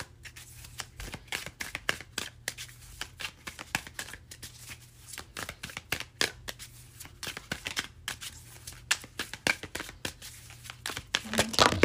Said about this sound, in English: This is a pretty wacky deck and we usually get some really interesting readings out of it, so I'm going to use this deck and then pull a few of these tea leaf oracle cards.